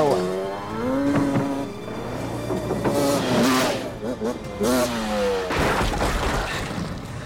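A dirt bike engine revs in loud, sustained bursts whose pitch rises and falls, blended with other sounds.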